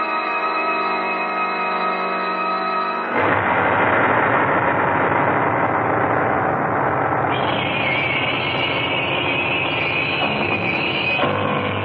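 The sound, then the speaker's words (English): Engine motor idling in a constant loud drone, first as a humming, tonal sound, then a rougher, broader rumble after a few seconds, with a higher whine joining partway through and holding to the end. “I says, there's got to be something done about this motor.”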